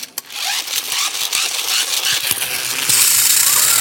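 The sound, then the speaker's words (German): High-pitched dental drill whirring into a tooth, a steady bright whine with faint rattling clicks that grows slightly louder and sharper in the final second. “dann lieber Bohrgeräusch. Dann lieber Bohrgeräusch. Das hört sich ungefähr so an.”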